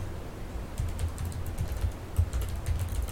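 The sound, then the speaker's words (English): Clicking keys of an older external computer keyboard, used in place of a laptop's, as someone types: many quick, light clacks in an uneven rhythm, fairly faint and with no talking. “do you like the clicks of my new keyboard? It's not new, but it's like it's, I pulled it out to use it because my laptop keyboard's just going crazy.”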